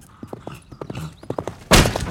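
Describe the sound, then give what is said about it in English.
A horse gallops hard with quick, rhythmic hoofbeats as its rider charges with a lance at propped wooden bucket targets. A sudden loud burst of noise cuts in near the end. “Hero rode hard and swift to spear through the targets Griff had set up.”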